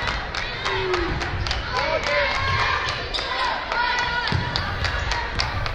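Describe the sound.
Basketball dribbling on the court during a girls' high school district semifinal: many quick bounces and thuds over steady crowd noise, with a commentator talking throughout.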